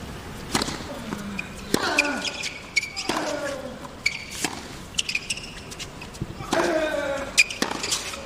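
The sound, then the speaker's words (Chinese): Several crisp tennis ball bounces come as Gonzalez prepares a second serve against Nadal in a professional match. The sharp thuds are spaced out at irregular intervals beneath ongoing commentary speech. “现在冈萨雷斯在自己的发球局占先。 第二发球”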